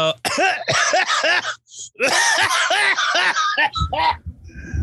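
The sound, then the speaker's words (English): A bearded man clears his throat and coughs repeatedly with something caught in it, in loud, rapid, raspy bursts that come in a few tight clusters separated by brief pauses. “something got caught in my throat.”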